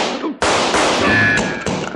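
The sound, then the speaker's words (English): Gunshots from a revolver in an old Western gunfight: a few loud, sharp cracks in quick succession, their blasts blurring into a dense, noisy wash. “That kind of shooting I never seen before”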